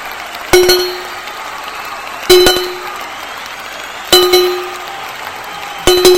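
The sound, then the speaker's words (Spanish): Four evenly spaced bell strikes, each a bright clang with a long ringing decay, mark the quarter chimes of a clock before the New Year's Eve midnight bells, with faint background noise between strikes. “ya solo 5 segundos para que empiecen las campanadas. Os recuerdo que lo primero son los cuartos”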